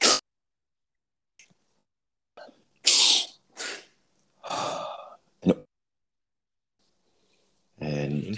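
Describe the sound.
Breathing demonstration of a three-part breath, inhaling into the stomach and chest and exhaling through the mouth: a few loud, breathy bursts separated by silence, with a voice briefly heard at the end.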